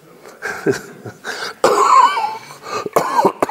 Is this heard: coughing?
yes